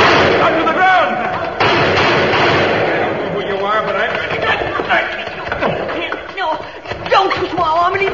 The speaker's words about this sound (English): Why did you fire at us? I thought you were animals or savages or something.